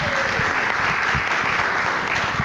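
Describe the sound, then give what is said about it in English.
Applause from a live show audience at the Audubon Society of Rhode Island's Raptor Weekend in Bristol, Rhode Island: many hands clapping in a dense, steady wash, loud and continuous throughout with no pause or fade. “That's our growing studio audience right here.”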